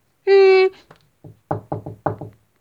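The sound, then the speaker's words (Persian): Knuckles knocking on a barn door: several firm, hollow raps in an uneven rhythm, loud and clear. A short voiced tone comes just before them. “به در کوبید و پرسید:”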